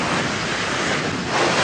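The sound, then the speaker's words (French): Sea waves and wind recorded while setting off on a sailing voyage from Plymouth: a dense, steady roar of surf and gusting wind that swells slightly louder toward the end, with no voices. “Vous entendez ? C'est le bruit de la mer.”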